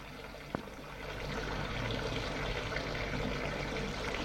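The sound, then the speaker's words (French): Water runs from a bathroom sink tap. A sharp click comes first, then a steady rushing flow swells in over about a second and carries on evenly. “Il quitte sa chemise et son pantalon, ouvre l'eau du lavabo,”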